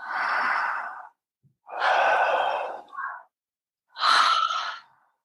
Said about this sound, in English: Make it a good, strong inhale, and then on the exhale, you just let go.